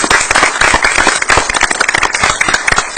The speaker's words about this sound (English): Give them a hand.